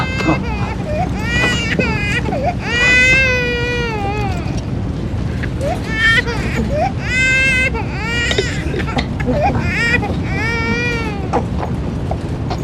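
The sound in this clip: A child of just over one year cries loudly and without pause, with wavering high-pitched wails and sobbing breaths running through the whole stretch.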